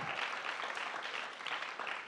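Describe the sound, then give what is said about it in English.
Church audience clapping for the worship team, a faint, even wash of many hands that continues steadily for a couple of seconds. “Come on, clap your hands for the worship team again. Would you do that? Praise God.”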